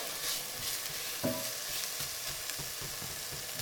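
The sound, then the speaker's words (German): Soft sizzling of ingredients sweating in a pan over medium heat for a one-pot pasta, faint and steady, with light stirring noises and a brief clink early on. “Dann lassen wir das hier mal ein bisschen so anschwitzeln, wie immer, mittlere Hitze, nicht übertreiben, ja.”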